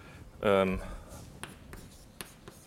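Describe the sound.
Chalk or marker strokes scratch across a board during a physics lecture, a few short scraping strokes following a brief voice, quiet and crisp.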